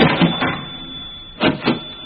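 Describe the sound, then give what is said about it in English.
A cash machine processes an inserted credit card with short bursts of mechanical whirring. Two pulses come at the start, the sound goes quiet for a stretch, then two more quick pulses follow. “will you please insert your credit card into the cash machine for financial screening?”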